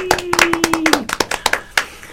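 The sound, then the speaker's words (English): A round of applause on a radio show for two performers after a song with a techno backing. A small group claps in quick, crisp bursts, and a sustained cheering voice is heard over the first second. “It's a full round of applause for Ambia and Thea.”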